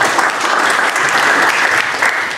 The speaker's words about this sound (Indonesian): Tepuk tangan untuk Pak